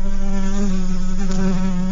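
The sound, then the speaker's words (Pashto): A housefly buzzes in a steady, low, wavering drone rich in harmonics, loud and continuous with no other sounds. “مچ داسې ساده حشره نه ده لکه موږ تاسو ته چې ښکاري.”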